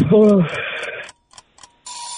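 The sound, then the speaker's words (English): A quiz countdown timer runs out: a brief burst of sound gives way to a few faint ticks, then a steady electronic tone sounds at the end. “There was the timer.”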